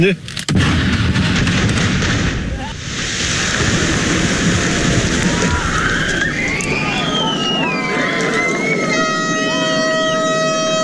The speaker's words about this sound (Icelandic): Fyrsta sprengingin í Austureyjagöngunum í Færeyjum Strandamegin, hátíðlega athöfn og mikill fögnuður